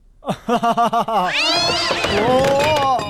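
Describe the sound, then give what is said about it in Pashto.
A loud, drawn-out cat meow with a wavering pitch, preceded by a few short rhythmic vocal sounds. “اسد په یوې پیشو چې په ځمکه پراته وه وخوت”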